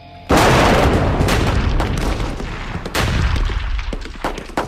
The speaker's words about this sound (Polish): Nie, ten wystrzał nie robi na mnie wrażenia.